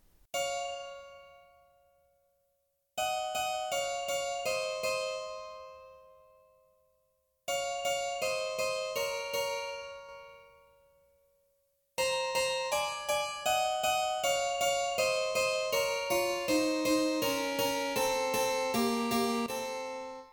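Simplified harpsichord melody in B minor, an adagio in 6/4: a held fifth-degree note doubled a third lower, then descending paired eighth notes. Three short plucked phrases, each fading into silence, lead into a longer, fuller passage over a sinking lower line.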